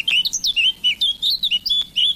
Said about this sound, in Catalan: Tallarol de casquet. Sílvia atricapila. Au que habita tot l'any als boscos.